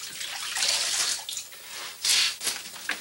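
Water splashes in a basin as a tall man washes his face, heard as a few bursts of splashing and trickling with short pauses between, at moderate loudness.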